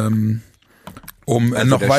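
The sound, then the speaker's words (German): Computer mouse clicks and keyboard typing come as a few quick, sharp clicks in a short pause between stretches of talk. “Parallel klicke ich mich gerade durch das Restprogramm,”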